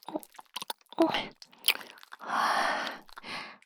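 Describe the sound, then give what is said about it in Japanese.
Wet, close-up licking on a freshly cleaned ear: many short sticky smacks and squishes in an uneven rhythm, with one longer, sustained slurp partway through. No talking. “耳かきしたばっかりですからね、綺麗で舐めやすいです。”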